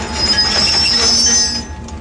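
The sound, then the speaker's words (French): A passenger train departing Chihuahua for the Pacific coast rumbles loudly, a thin high wheel squeal riding over the steady rolling noise before easing off near the end. “c'est de prendre le train qui va de Chihuahua, la capitale de l'État, jusqu'à la côte du Pacifique.”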